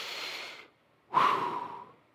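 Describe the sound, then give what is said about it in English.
Two long, airy breaths are separated by a short silence as someone takes a deep breath. The first fades out gradually, and the second starts more strongly before tapering off, with no talk. “And it's us being able to take a deep breath no matter what we're facing in life and go,”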